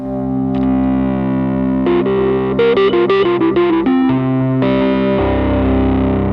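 Electric guitar through a cheap overdrive pedal with the drive turned up, a mid-boosting, Tube Screamer-like distortion: a loud sustained chord, then a run of quicker distorted notes, then held chords ringing out.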